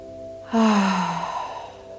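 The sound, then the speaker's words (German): A deep breath let out through the mouth as one audible, voiced sigh. It starts suddenly about halfway through, with a slightly falling tone, then trails off softly. “Und nimm so gerne erstmal tiefe Atemzüge durch die Nase oder den Mund ein, durch den Mund wieder aus.”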